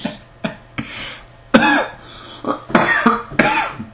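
A person breaks into a coughing fit, with a run of harsh, forceful coughs and throat clearing coming in uneven bursts over a few seconds, loud and without speech.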